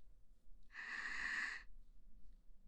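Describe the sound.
One heavy, drawn-out breath, loud and hissing, lasting about a second against near-silence.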